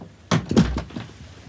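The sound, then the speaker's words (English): A door being closed: a few dull, low thuds in quick succession, the second heavier than the first, fading into quiet afterward. “Close the door.”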